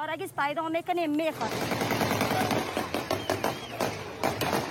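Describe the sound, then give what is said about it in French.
Gunfire fired to disperse crowds around the capital's airport in Afghanistan: rapid, sharp cracks repeat many times over dense crowd noise, with raised voices heard just before the shooting. “Autour de l'aéroport de la capitale, des tirs de dispersion.”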